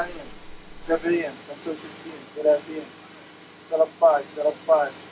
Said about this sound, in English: the loud sound of a machine that produces electricity at the refugee camp